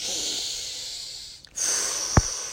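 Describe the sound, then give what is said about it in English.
A deep breath drawn in and let out slowly, two long airy hissing stretches split by a brief pause, with a short sharp knock near the end. “Let's take a deep breath.”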